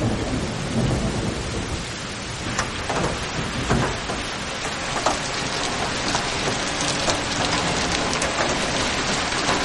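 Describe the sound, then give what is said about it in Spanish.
Rain falls steadily on a village in the Basque Country, a loud, dense hiss of drops with low rumbling underneath, continuing evenly throughout with no voices. “Llueve en un pueblo de Euskadi.”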